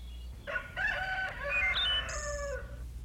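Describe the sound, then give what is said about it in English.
A rooster crowing at daybreak in the countryside, a single drawn-out cock-a-doodle-doo ending on a strained high note over a steady low background hum. “a rooster crowed good morning”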